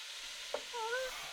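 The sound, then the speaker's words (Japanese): Vegetables sizzle as they are stir-fried in a pan, giving off a faint, steady hiss. A brief clack and a few thin squeaky tones rise over it midway. “次はお野菜。ここは、大胆に全部入れましょう。それ。これも炒めます。”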